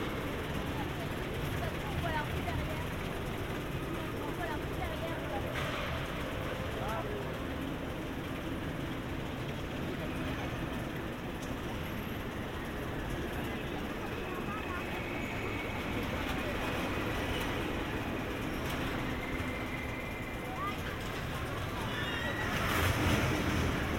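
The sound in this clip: A fairground ride runs along its track up the climb, making a loud, steady, broad rumbling clatter that holds without breaks throughout and swells slightly near the end.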